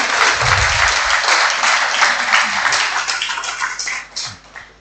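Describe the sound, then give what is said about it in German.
A church audience breaks into loud, dense applause, a steady wash of many clapping hands that stays strong for several seconds before thinning and tapering off at the end. “Wir können uns mal alle beklatschen. Einen Applaus.”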